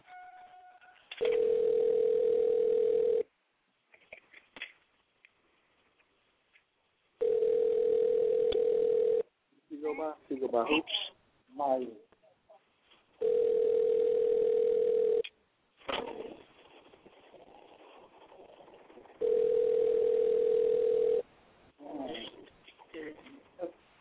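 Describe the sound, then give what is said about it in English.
Ringback tone of an outgoing phone call: four long, steady, even tones, each about two seconds, repeat with gaps between them, and short bursts of voices and other noises fill the pauses. “All right, we're calling that brother right now.”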